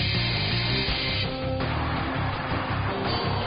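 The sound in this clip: Air wrench whirring in a loud, continuous, rough mechanical drone that holds steady throughout with only slight shifts in texture.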